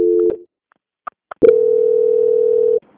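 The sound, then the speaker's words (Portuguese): A telephone call transfer tone on a line: a short steady beep that cuts off, a few faint clicks, then a long, loud, steady tone lasting over a second. “Peço que a senhora aguarde só um momento na linha. Ok. Transferência.”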